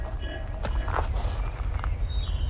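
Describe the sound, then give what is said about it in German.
Slow footsteps walk along two rows of graves in a village cemetery, soft, evenly spaced steps over a low, rumbling background. “Langsam schritt Wank die 2 Gräberreihen ab.”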